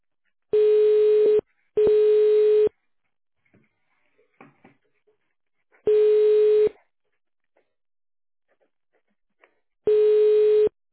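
A telephone ringback tone plays while a call is transferred. Four steady, buzzy tone bursts come at uneven intervals, separated by near silence with a few faint clicks.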